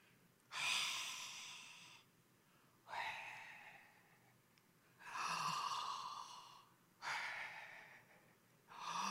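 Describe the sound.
Breaths imitate a name spoken with the mouth open and without using the tongue: five loud, airy exhalations, each a long breathy rush, evenly spaced with short pauses between, and no voice behind them.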